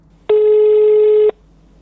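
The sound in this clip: A telephone ringback tone on an outgoing call: one steady, loud ring lasting about a second, with a low hum beneath and quiet before and after. No one talks.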